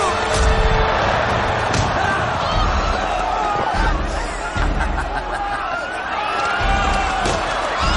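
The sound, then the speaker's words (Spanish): Chariots crash into the spectator stands during an ancient Roman chariot race, with horses climbing the barriers among the spectators. A dense, continuous roar of crowd noise carries heavy thuds and clatter throughout. “provoca que dos carros se estampen contra la tribuna del público.”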